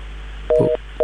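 Telephone line tones sound after a call is cut off: a short, loud two-note beep, a brief gap, then the same tone starting again, over a faint low hum.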